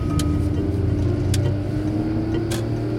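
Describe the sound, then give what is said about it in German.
A car drives onto the motorway with a steady, low engine and road drone that holds an even level throughout, with no voices. “Oh, er fährt auf die Autobahn.”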